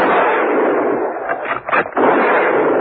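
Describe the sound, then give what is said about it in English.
Gunfire from a firing squad, a loud, dense roar of shots that runs almost without a break, dips briefly in the middle and then resumes at full force, with no voices. “They heard the shots from the deserted garage and ran towards it.”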